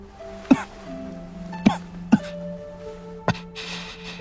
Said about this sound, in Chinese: 荣仓说完，闷闷憋出几声抑制不住的咳嗽